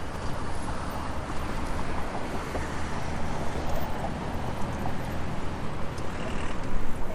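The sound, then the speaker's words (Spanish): Steady rumble of city street traffic heard while crossing Carrera 50 in Bogotá, a constant low wash of passing vehicles that holds at moderate loudness throughout, with no voices. “Otra vez cruzo la calle, carrera 50 es esta.”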